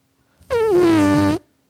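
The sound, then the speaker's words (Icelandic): A voice imitates a tight fart with one loud, strained, buzzing squeal of about a second, starting high and sliding down to a steady lower drone before it cuts off. “En já, það er svona, það er svona þröngt, þröngt prump”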